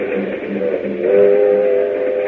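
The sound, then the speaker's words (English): A train travelling to Miami rumbles steadily, and midway through a sustained whistle-like tone rises out of the noise and holds to the end, with no voices. “Meanwhile, on a train to Miami...”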